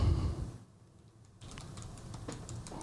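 Typing on a computer keyboard: a faint, quick run of soft, light clicks that begins partway through, after a short quiet lull that follows a low rumble at the start.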